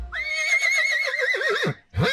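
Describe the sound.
A horse gives one long, loud whinny whose quavering pitch wobbles and drops toward the end. After a brief pause, a second call begins.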